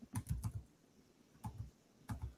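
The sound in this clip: Typing on a computer keyboard comes in three short, quiet bursts of sharp key clicks, a quick cluster first and then two briefer pairs, with pauses between them.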